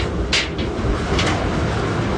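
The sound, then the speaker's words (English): A large laundry dryer door, on a machine holding about 100 pounds of Navy laundry, is opened with two brief scraping bursts over a steady background hum. “And right now I'm opening the dryer. This dryer holds about 100 pounds of laundry.”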